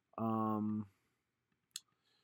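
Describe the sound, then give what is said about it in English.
A computer mouse click sounds once, short and sharp, after a brief hummed voiced sound and a pause of near silence. “Hold on. I'm going to click on Ezekiel Sims here.”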